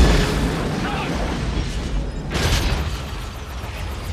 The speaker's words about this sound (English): he appears to be aiming a rocket launcher at the chalet